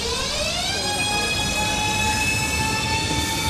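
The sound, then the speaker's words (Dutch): A passenger train, a commuter train in Madrid, sounds in a loud, steady rumble layered with high whining tones that rise briefly at the start and then hold level throughout. “ze stapt elke ochtend weer in de trein naar haar werk.”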